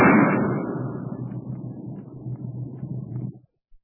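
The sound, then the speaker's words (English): A single gunshot rings out in a cave in a radio drama: one loud blast at the start, then a long, rumbling decay that fades out after about three and a half seconds. “Say, old Kip meant business that time. I wonder if Johnny and Sue and all the rest dropped in time before he shot.”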